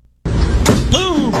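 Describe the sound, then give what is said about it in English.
A knockout punch from a fight video lands as a heavy, smacking thud inside loud, continuous noisy audio, with a voice crying out around it. “So this guy right here, he ain't having it. Watch this knockout punch. This is a good one.”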